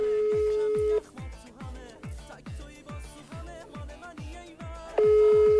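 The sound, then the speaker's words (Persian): Ringback tone heard while placing a phone call: a steady electronic tone sounds at the start and returns near the end, with a rhythmic run of short plucked-like tones in between. “الان میخوای بهش زنگ بزنم؟”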